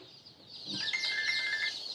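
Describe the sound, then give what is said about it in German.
Chicks peeping in a poultry farm rearing shed, a faint, dense, continuous chorus of high chirps that swells after the first moment and holds steady. “Christine Bremer impft im Aufzuchtstall ihre Küken.”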